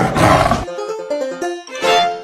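A tiger gives a loud, rough roar that drops into a lower, rumbling growl and then swells again at the end.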